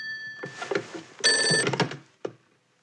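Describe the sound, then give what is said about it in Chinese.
A telephone rings for an incoming call, its bell sounding in rapid clattering bursts before stopping, followed by one short knock and silence. “这事儿不能就此罢休，我直接给委座打电话。”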